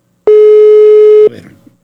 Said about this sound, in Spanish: No, a ver, déjeme marcarle aquí a mi compañera, déjeme un segundo.